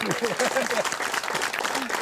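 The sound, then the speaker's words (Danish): A studio audience applauds a talk show guest in a brief burst of clapping, with a man's voice speaking over it. “jeg synes lige, du skal have en stor hånd.”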